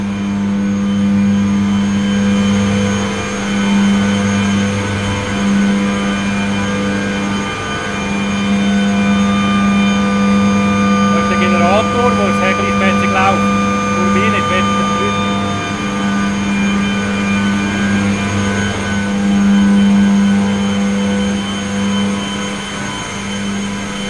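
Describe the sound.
A running power generator with a yellow housing, joined by a turbine, makes a steady, loud mechanical drone with strong sustained tones. The sound holds level throughout, with only slight wavering.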